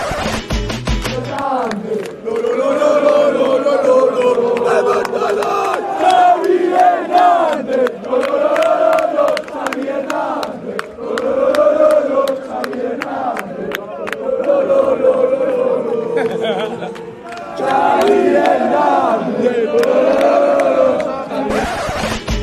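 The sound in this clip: A loud football crowd in the away section chants a name over and over in rhythmic, sing-song phrases, a dense mass of voices with one short lull before the chant picks up again.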